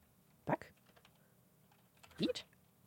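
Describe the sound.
Faint typing on a computer keyboard comes in two short bursts of quick clicking keystrokes, separated by near silence.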